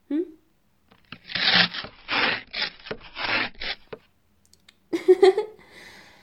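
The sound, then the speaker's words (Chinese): A delivered parcel is torn open in several rough, rasping bursts of tearing and rubbing packaging, moderately loud and uneven in rhythm. A voice follows briefly afterward. “那个就是今天送来的快递吧？嗯，哼，去，把它拆开。”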